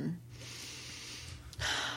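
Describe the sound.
A person takes a deep breath as a demonstration: a long, airy, breathy rush that swells into a louder, rougher burst of air near the end.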